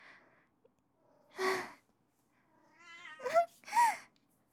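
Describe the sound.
A few short cat meows with curving pitch, faint and separated by quiet gaps, alongside a breathy burst.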